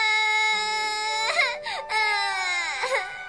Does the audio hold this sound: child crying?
yes